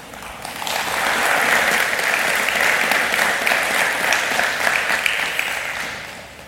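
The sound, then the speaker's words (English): A room full of people gives a round of applause for a person named at a recognition ceremony. Dense, even clapping rises quickly, stays loud and steady, and thins slightly toward the end. “So we'll give her a round of applause.”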